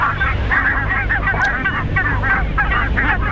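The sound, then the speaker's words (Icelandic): Goose-like honking calls from a bird, repeated many times in a steady run of nasal, harmonic cries over a constant low drone. “Þetta er svona, ef ekki segja, gæsalegt hljóð, er það ekki?”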